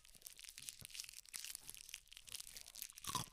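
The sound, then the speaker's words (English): Ice is crunched while being eaten, giving faint, irregular crackling crunches and grinding in quick succession, with no voices. “I'm eating ice.”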